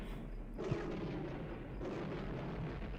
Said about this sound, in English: Oh, the triple blow up. That's how you know it's good.